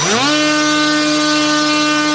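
Small engine of a Furia reconnaissance drone starting up. Its pitch climbs quickly, then settles into a loud, steady buzzing drone that holds to the end.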